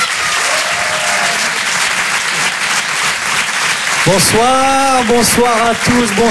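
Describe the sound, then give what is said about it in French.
Audience applause at a live comedy and song show as a performer is welcomed onstage: dense, steady clapping fills the whole stretch, and a voice speaks over it in the second half. “Faites du bruit, un maximum de bruit s'il vous plaît pour Jason Brokers.”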